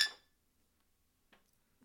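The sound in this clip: A bright glass clink of bottles knocked together in a toast over a freshly opened cold beer. It is one sharp, ringing strike that fades quickly, followed by a couple of faint small knocks.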